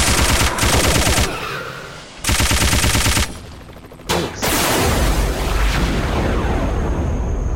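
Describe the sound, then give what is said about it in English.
Machine-gun fire in a shoot-'em-up video game. A few loud, rapid-fire bursts are broken by short gaps, then a long, continuous barrage of crackling shots with booming, explosive weight follows. “Nukes, zero. Machine gun. That'll help me clear them out.”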